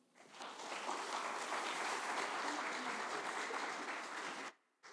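Audience applause welcoming panel guests to the stage: a full burst of clapping swells quickly, holds steady for several seconds, then cuts off abruptly.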